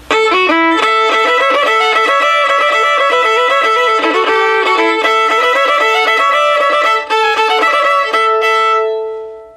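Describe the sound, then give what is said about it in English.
A fast bowed fiddle hoedown tune played with the bow kept on two strings, shifting between the A and E and the A and D pairs, gives loud, continuous double-stopped notes before a final sustained chord rings out and fades. “So here's Red-Haired Boy, this is the A part, and I'm gonna keep my bow on 2 strings the whole time.”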